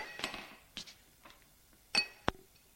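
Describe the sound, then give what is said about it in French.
A candlestick dropped on the floor gives a few bright metallic clinks and clatters, with short gaps between them and one sharp final ping. “Puis, lâche ce bougeoir à terre.”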